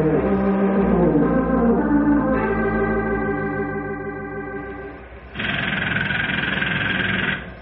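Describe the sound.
A rivet gun hammers rivets into steel beams with a rapid, buzzing, machine-like rattle at a steady pitch. It stays moderately loud, fades slightly, then breaks into a louder, harsher burst for the last couple of seconds.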